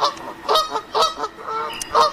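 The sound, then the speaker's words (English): Canada goose honking in a series of harsh, nasal calls that come in short, loud bursts at an uneven rhythm, with no voices. “I'm going to cut it there. It's vulgar. It's rude. Only that of a Canadian goose.”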